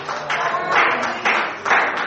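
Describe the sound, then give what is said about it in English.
Congregation clapping their hands during a church service: a dense, bright patter of many hands that swells and eases in a few quick waves. “And clap your hands and say, Lord, I thank you so”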